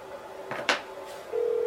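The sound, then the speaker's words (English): A telephone call sounds on the line, with a steady electronic tone humming throughout. A brief burst of noise breaks in midway, then a louder sustained tone starts near the end. “Give him a call. Watch him not answer.”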